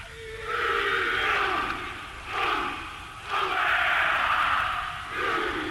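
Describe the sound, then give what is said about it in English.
Traditional Maori warrior greeting at a stadium ceremony welcoming Prince Edward: many voices shout and chant together in loud, sustained surges, a few long bursts separated by brief dips. “Inside the stadium, there was a traditional Maori welcome. First, the ceremonial rubbing of noses, a hongi, followed by a full warrior greeting.”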